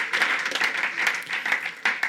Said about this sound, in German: Wenn wir einfach vielleicht mal eine Reaktion zeigen, Gott einen Applaus geben.